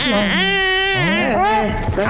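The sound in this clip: A baby cries in high, wavering wails while an adult voice talks alongside during a family photo, the sobbing rising and falling in sustained, strained bursts.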